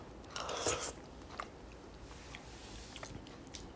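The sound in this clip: Biting and chewing on freshly grilled pufferfish: a quiet, moist crunching burst near the start, then a few faint, scattered chewing sounds.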